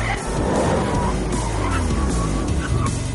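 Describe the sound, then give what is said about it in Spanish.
A white Porsche's engine rumbles as the car brakes to a stop at a traffic light, with a continuous loud, low drone and squealing tire sounds. “El Porsche blanco de Mikkel se detiene en un semáforo.”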